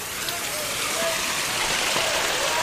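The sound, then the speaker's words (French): Water runs in a warehouse where bananas are washed, a continuous dense splashing rush like heavy rain that holds an even level from start to finish. “Alors ça, c'est l'eau qui coule justement dans l'entrepôt pour laver les bananes”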